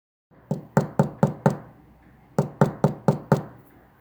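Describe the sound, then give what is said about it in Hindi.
Knocking on a door comes as two evenly paced runs of five firm, hollow knocks each, separated by a short pause. “तुम दरवाज़ा खटखटाओ, कछुए ने कहा।”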